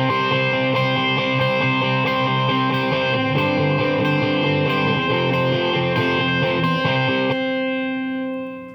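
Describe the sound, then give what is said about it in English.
An electric guitar repeats C octaves as a pedal tone over distorted power chords in a pop-punk song, the notes pulsing evenly and continuously until a final chord rings out and fades. “And then you hear another guitar track that's repeating C notes, octaves, on top of that. And they are functioning as a pedal tone, and it sounds like this.”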